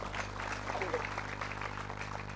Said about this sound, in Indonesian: Untuk itu aplaus untuk kita semuanya.